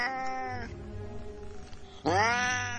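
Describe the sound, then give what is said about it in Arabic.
Cat meowing, hidden inside a car and sounding unusually strange: two drawn-out harmonic meows, one at the start and a louder one near the end, separated by a quieter, breathy gap. “في صوت، صوت قطة. ودي ايه اللي هيجيبها هنا دي؟”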